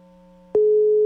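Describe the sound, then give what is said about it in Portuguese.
A telephone tone sounds as a call is placed: a single steady electronic beep begins midway and holds at one pitch to the end, over a faint constant hum. “Tá, deixa eu ligar pra ele aqui, peraí, só um minuto.”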